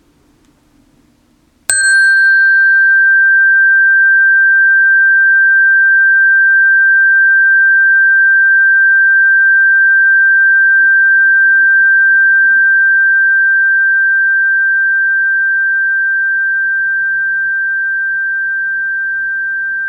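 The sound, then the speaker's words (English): A tone bar is struck once and rings out as a clear, pure, high tone. It holds steadily on its own for many seconds and fades very slowly toward the end. “Now I'm going to sound the tone bar and see if you can listen to the sound until you cannot hear it anymore.”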